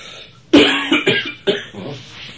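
Coughing from one person, a few harsh, throaty coughs in quick succession: a strong first burst, then shorter, weaker ones.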